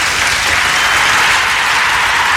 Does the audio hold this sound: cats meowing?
no